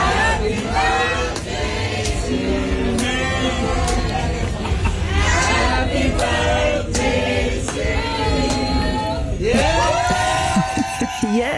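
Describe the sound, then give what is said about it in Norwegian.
Fans sing a birthday song together at a live concert in Singapore, a loud, sustained mass of voices that carries throughout, with cheers and yells rising over the singing near the end. “Og der ble hun da overrasket av fans som sang bursdagssangen.”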